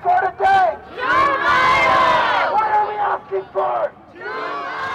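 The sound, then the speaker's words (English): Student protesters chant in front of City Hall in call-and-response: a leading voice calls out and a crowd answers with loud, shouted replies in short bursts, voices blending into a hoarse group roar. “That's the sound of protesters in front of City Hall.”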